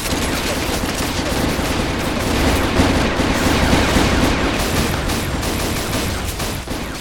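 Sustained gunfire after an order to shoot, a loud, dense barrage of overlapping shots that runs without a break for several seconds and eases slightly at the very end.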